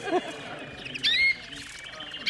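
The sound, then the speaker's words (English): A caged pet bird sings and calls, giving a few short bright chirps and a louder, squawky call with a rising tone in the middle, between quieter gaps. “This bird has a fault that every once in a while it'll open its mouth and go, caw, caw. That's a fault, but it has freedom, which means it sings a lot.”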